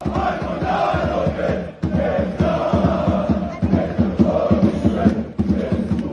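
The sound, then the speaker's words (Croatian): A crowd of football fans in Bosnia and Herzegovina, waiting for a match, chants together in a loud rhythmic pulse, the massed voices beating steadily with a few brief dips before surging again. “Evo u kakvom ambijentu ljudi u Bosni i Hercegovini čekaju utakmicu za istoriju.”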